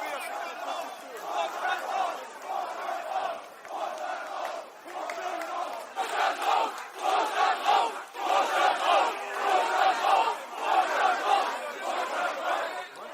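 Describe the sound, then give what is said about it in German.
An angry crowd chants "Vorstand raus" and "Baumann raus", demanding the board and Baumann go. Many voices repeat the call in a rhythmic, pulsing chant that rises and falls in loudness. “Unschön, Vorstand rausrufe, Baumann rausrufe.”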